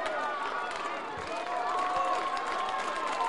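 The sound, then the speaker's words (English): Baseball fans jeering the batter at Chick Chansey Park: a steady, restless crowd roar runs throughout beneath a man talking. “Lamar King drawing the ire of the fans here at Chick Chansey Park. I told you they've been vocal.”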